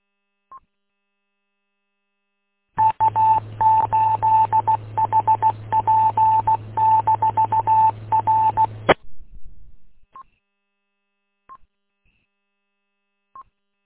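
Electronic beeping tones over a phone line during an amateur radio check-in: a dense six-second run of rapid, clipped beeps over a steady low hum, with a few isolated single blips before and after.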